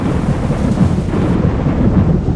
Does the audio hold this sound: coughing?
no